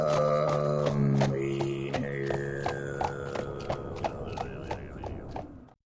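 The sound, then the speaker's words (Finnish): Horse hooves clip-clop while riding on the steppes, with many crisp, evenly spaced knocks in a steady rhythm over sustained musical tones, fading out abruptly at the end. “aina kun ratsastan aroilla, kuuntelen Rakkauden vappuradiota.”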